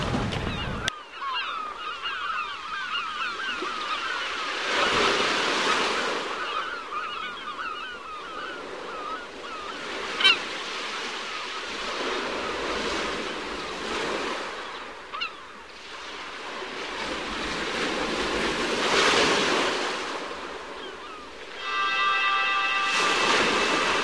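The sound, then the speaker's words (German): Outdoor ambience at Barceloneta beach in Barcelona on a sunny day, a broad steady wash that swells and recedes in a few slow surges, with one sharp knock midway and a brief tonal honk near the end. “Es ist also eine Art Volkssportgelände hier in der Barceloneta in Barcelona an einem sonnigen, herrlichen Tag.”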